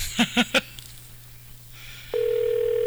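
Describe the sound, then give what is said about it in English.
Three quick touch-tone beeps of a telephone being dialed during a live radio call-in. After a short quiet pause, a steady, continuous line tone follows. “Nothing like dialing on live radio.”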